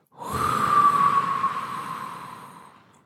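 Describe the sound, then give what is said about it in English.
A single long, breathy exhale during a breathing exercise, rising quickly and then slowly fading away over a few seconds. “take another in-breath. Blow out again, hold the content of the mind.”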